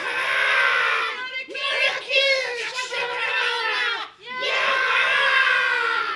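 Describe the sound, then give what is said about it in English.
A mass wail rises from a crowd hidden in foliage: many high voices cry and scream together, break off briefly, then swell again, loud and layered. “The slingstone stopped and a mass wail went up from the foliage.”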